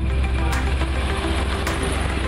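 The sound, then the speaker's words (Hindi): Traffic rumble at a highway toll plaza as vehicles roll through freely without braking, a steady broad low roar with a couple of brief passing whooshes. “इस toll plaza पर आप देख सकते हैं सभी गाड़ियां जो है सरपट दौड़ रही हैं और लाइन फ्री है।”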